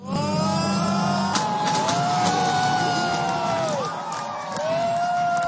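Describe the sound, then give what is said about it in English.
Supporters cheer as Ukrainian presidential runoff exit poll results show a landslide win for Volodymyr Zelensky. A steady, loud crowd roar carries sustained pitched tones throughout, dipping briefly near the end. “Supporters cheered as they watched the Ukrainian exit polls come in after a landslide victory of Volodymyr Zelensky.”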